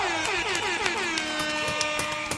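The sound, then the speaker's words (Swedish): A blaring horn sound effect, played as a celebratory toot, holds a loud, continuous, buzzy tone rich in harmonics for a couple of seconds. A few sharp accents punctuate it, and no one talks. “En applåd och en tuta på det.”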